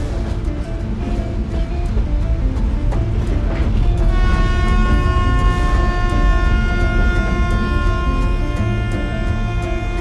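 A diesel shunting locomotive hauls a train of gondola cars with a loud, steady rumble throughout. About midway, a sustained high-pitched metallic whine joins in, stacked in several bright tones.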